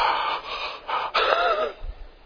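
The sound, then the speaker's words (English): An audience gasps in shock at a sharp remark, a breathy, hissing intake of breath that swells and lingers for about two seconds, with no talking. “And just like the gasp that you're giving me right now.”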